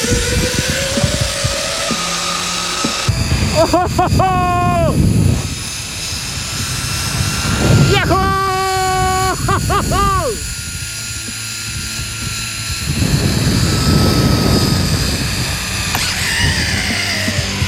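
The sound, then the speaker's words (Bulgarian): A zipline trolley speeds along a cable over a lake at about 60 km/h on a long alpine ride, with a continuous rushing roar of wind. Two loud bursts of wavering, bending whine rise above it midway. “Това беше наистина екстремно бръснещ полет над езерната повърхност. Горе-долу скоростта ни е около 60 км в час, така че доста е приятно и доста е бързо. Това е най-дългият алпийски тролей върху водна повърхност у нас.”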